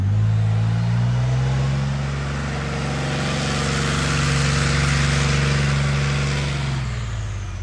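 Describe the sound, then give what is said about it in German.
Deep diesel engine roar from an armoured recovery tank during a military demonstration at a troop training area in Holzwickede. The low rumble is loud and steady, with broad noise that swells and eases slightly, and no voices. “und hier wird es jetzt wieder laut und es riecht nach Diesel. Das heißt, hier wird jetzt schweres Gerät vorgeführt. Die Heeresinstandsetzungslogistik, kurz HIL, hat hier gerade eine Vorführung und zwar vom sogenannten Bergepanzer”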